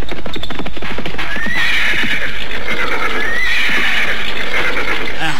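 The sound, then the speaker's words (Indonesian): Horses of a troop of mounted soldiers approach with a dense, loud stream of clopping hooves as a horse whinnies twice, high and wavering. “Sepasukan prajurit berkuda datang mendekatiku.”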